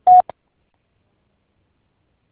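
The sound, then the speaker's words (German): Vodafone voicemail beep tone: one short, steady mid-pitched beep followed immediately by a tiny click, then silence. “Bitte sprechen Sie Ihre Nachricht nach dem Tonsignal.”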